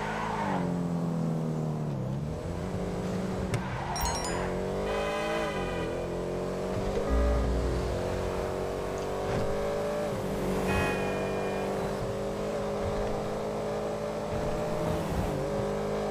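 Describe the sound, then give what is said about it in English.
Car engine in a video game drones steadily throughout, its pitch rising and falling as the car revs and speeds along the road. “Hold on, I'm gonna do the jump. Lord, that was not a jump. That was a wreck. My car wrecked, so... Got on the wrong side of the road.”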